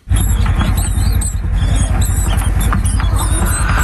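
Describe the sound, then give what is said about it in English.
Hundreds of mice in a frenzy eating cattle feed during a rodent plague on farmland in southern and western Australia: a dense, loud, unbroken rustle and patter, dotted with high squeaks. “Now that is the sound of hundreds of mice in a frenzy tucking into some cattle feed.”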